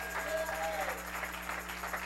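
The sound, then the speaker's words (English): Congregation clapping hands during a church service, a soft, continuous patter with a speaking voice over it and a steady low electrical hum beneath. “somebody shout a little bit, clap your hands a little bit, give God a little bit of praise here.”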